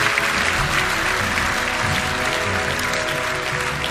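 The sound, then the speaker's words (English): A church audience applauds to welcome new members, a steady, fairly loud stream of many hands clapping that holds without a break for about four seconds. “Can we put our hands together this morning? Just welcome people into God's family today.”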